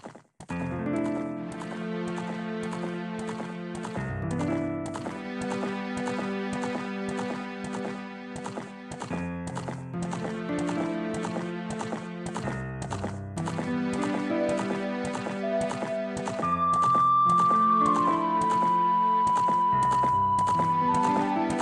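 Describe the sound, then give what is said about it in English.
Hoofbeats of the horse Epona galloping with Link in an Ocarina of Time video game cutscene, a rapid steady rhythm running beneath continuous melodic music throughout. “Absolutely beautiful cutscene with Link riding Epona. Oh, I love that, that still am- gives me chills, man. That amazing that, that Koji Kondo coming in. Yeah. yeah. Oh my god, we're gonna cut to that right now.”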